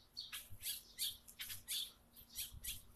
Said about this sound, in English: those are birds expressing themselves.